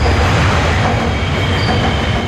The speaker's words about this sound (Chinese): 在不足1公里外的黄埔大街长江二桥引桥下，地铁1号线列车从头顶呼啸而过